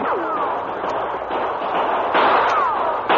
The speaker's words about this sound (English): Holy mackerel, start shooting! They're coming from every direction.